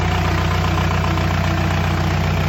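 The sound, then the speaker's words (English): A mechanically injected four-cylinder diesel engine idles at a very steady speed, with a loud, even clattering drone that runs unbroken throughout. “Love the clackety clackety. Four cylinder. Mechanical injected.”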